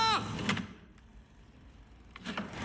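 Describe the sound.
A window being opened, heard as a steady mechanical whirring drone of over a second that sits between brief bursts of voice before and after.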